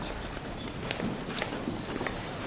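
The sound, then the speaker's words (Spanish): Faint footsteps going down marble stairs inside a theatre, a few soft, irregular steps barely rising above a steady hiss. “bajan por unas escaleras de mármol”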